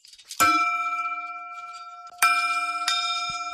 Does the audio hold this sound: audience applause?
no